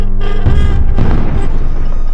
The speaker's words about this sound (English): Destroyed the viaduct. I rigged it with C4 on the way here.